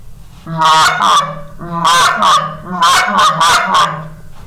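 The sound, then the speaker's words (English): Goose honking imitated on a short reed goose call with a reed about an inch long and three-quarters of an inch wide. Loud, nasal honks come in three quick clusters, two, two, then three. “But the short reed goose call, as in the name, the reed is about an inch long and about 3/4 inch wide. And it's more for advanced calling, and it sounds something like this.”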